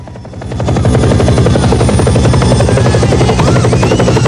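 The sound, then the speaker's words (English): A helicopter comes in to land on overgrown parkland. Its loud rotor chop swells over the first second, then holds as a steady, heavy beating drone with a buzzing whine above it. “The gaggle of prisoners wave enthusiastically at the helicopter as it comes into land on the overgrown parkland.”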